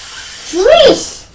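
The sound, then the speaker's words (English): A voice imitates tap water running into a kettle, making a brief hissy, voiced sound of about half a second that swoops up and then down in pitch over a soft background hiss. “Well, it's water from the tap. Going into the kettle.”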